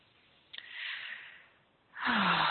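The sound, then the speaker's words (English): A group takes a slow, shared breath during a guided healing meditation: a soft, airy inhale builds and fades, then a louder, fuller exhale follows near the end. No one speaks. “So let's take that breath together.”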